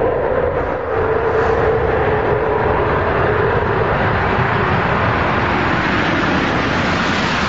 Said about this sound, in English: Main gear touchdown.